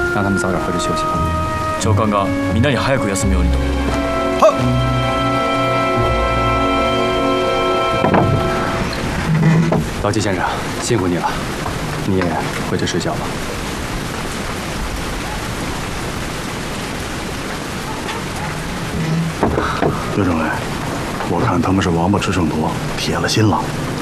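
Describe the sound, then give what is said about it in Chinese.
Rain falling with thunder: a dense, steady hiss of downpour runs throughout, with deep, rolling rumbles of thunder swelling beneath it. “下雨了。”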